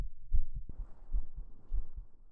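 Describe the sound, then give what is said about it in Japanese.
A mother's heartbeat thumps in soft, low, muffled double beats that repeat steadily a few times over a faint hiss. “聞こえるかな？ドキドキドキドキドキドキドキドキ”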